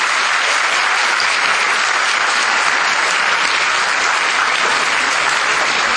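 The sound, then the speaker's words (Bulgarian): Graduates at a graduation ceremony applaud their teachers with loud, dense, continuous clapping that holds steady for the whole stretch, with no voices breaking through. “Аплодирайте преподавателите си в този миг. Аплодирайте.”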